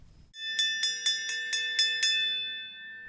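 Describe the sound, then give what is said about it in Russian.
A school bell rings in seven quick, evenly spaced bright strikes over a sustained metallic tone, which lingers and fades once the strikes stop. “Как раз в этот момент прозвенел звонок, и все разошлись по местам.”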